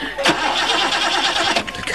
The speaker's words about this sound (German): Mein Gott, Sie sehen es doch, der Motor springt nicht an.